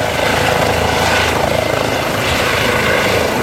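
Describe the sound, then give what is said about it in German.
A Eurocopter helicopter takes off at a military site, giving a loud, steady roar of engine and rotor with a fast, even beating pulse throughout and no talk. “Aber ich muss sagen, man muss sich noch relativ gut festheben. Es läuft nämlich recht, wenn so ein Eurocopter startet.”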